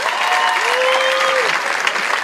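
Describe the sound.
Audience applause at a modern poetry reading: dense, continuous clapping that stays loud and even throughout.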